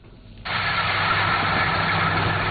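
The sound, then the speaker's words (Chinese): A large combine harvester harvests rapeseed in a field. Its engine noise kicks in abruptly after a quiet moment, then holds as a loud, steady, continuous drone with no breaks. “在安徽黄山市歙县镇村镇梅村的油菜田里，大型收割机正开足马力穿梭作业，一垄垄油菜被快速卷入机身”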